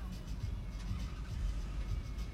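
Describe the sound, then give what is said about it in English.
Low rumbling engine hum of a car creeping forward in a drive-through vaccination queue, a steady, faint idle with no clear voices. “okay, this car's moving forward. I gotta move forward to the next spot here.”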